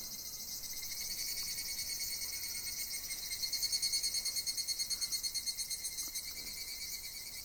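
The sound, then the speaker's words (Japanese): Higurashi evening cicadas call in a faint, high, shimmering trill that swells into a rhythmic pulsing stretch midway and then eases back. “これ聞くでしょう、山の中というよりちょっと山に入りかけのところにもある、これは日暮らし、その日暮らしの日暮らし”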